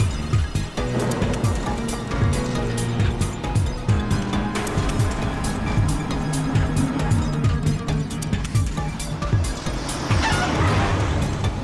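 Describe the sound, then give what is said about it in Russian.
A car drives off and keeps moving along a road as it flees, a steady engine rumble mixed with road noise that holds at an even, fairly loud level throughout, swelling slightly near the end. “Он выезжает и продолжает движение.”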